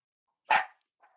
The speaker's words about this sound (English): Sorry, I just clicked unmute at just the wrong time, and that's my dog, who only barks when I'm on Zoom.